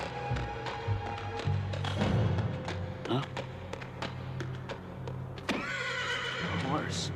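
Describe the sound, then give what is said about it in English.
A metallic horse neighs in a chamber, giving a shrill whinny over a dense, busy layer of effects, with a sharper noisy sweep near the end. “Sure are a funny looking horse, aren't you, boy?”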